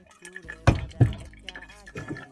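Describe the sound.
Hot water trickling over coffee grounds in a pour-over brewer, a second pour of 20 g bringing the total to 40 g; a soft steady stream with a few louder splashing drips.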